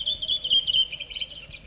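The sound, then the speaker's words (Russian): High, thin bird chirps and twittering from a dawn chorus in a birch grove in early May near Leningrad, running almost without pause as bright, quick, tonal notes over faint low background noise. “Вы слышите сейчас утренний хор птиц березовой рощи, записанный в начале мая под Ленинградом. Далекое кукование кукушки.”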